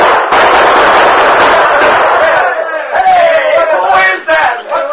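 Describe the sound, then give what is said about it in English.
Gunfire in a shootout near a gulch: a loud, dense crackling barrage that runs through the whole clip, with shouting voices rising over it in the second half. “what was that shot? All right, Tonto, open fire. Chase him back into the gulch.”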